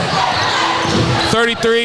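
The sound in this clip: A basketball bouncing on the court during a game between Team Yellow and Team Black, a few hollow thumps ringing under continuous excited commentary.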